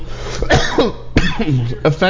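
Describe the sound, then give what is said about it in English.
A few sharp, rough coughs break out in quick succession, each a harsh burst mixed with throat-clearing and voiced sounds. “I don't know what I'm coughing on at the moment.”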